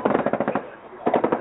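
Rapid automatic fire from an M16 rifle in two loud bursts of fast, evenly spaced shots, split by a short pause.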